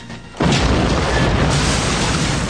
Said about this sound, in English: Explosions block the schoolhouse.